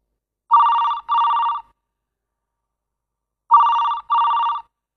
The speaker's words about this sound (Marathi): 2 दिवसांनी रात्री 10 वाजता भाचीचा फोन आला.